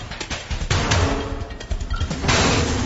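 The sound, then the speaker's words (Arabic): Gunfire in a drama scene where thieves open fire on the main characters: a few sharp, loud bursts cut through a dense, noisy rumble, with no voices heard. “طب هدول حرامية ايه جايبهم يضربوا نار علينا؟”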